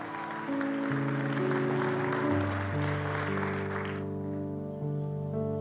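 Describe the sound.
Audience applause welcomes a speaker to the stage at a church service: a dense, steady wash of clapping over sustained keyboard chords. The clapping falls away near the end while the chords ring on.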